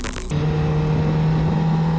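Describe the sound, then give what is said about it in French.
A stock Honda Fireblade inline-four motorcycle, 217 hp on Michelin slick tyres, pulling out of the pit lane: a short louder burst opens, then a steady droning engine hum holds at an even pitch. “On va se mettre en jambe avec la Fireblade standard. 4 cylindres en ligne de 217 chevaux pour 201 kg avec les pleins.”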